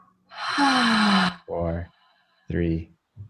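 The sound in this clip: A long, audible exhale after a held breath: a loud breathy sigh lasting about a second, followed by a few short voiced sounds.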